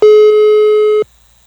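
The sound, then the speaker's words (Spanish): A telephone call tone plays while the call goes unanswered: one loud, steady, mid-pitched beep lasting about a second, then it cuts to silence. “A lo mejor le entró otra llamada, porque le estoy marcando y no contesta.”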